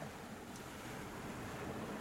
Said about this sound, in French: C'est marée haute. La mer est déchaînée aujourd'hui.